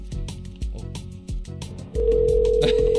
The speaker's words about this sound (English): Oops, I didn't know you're dialing already.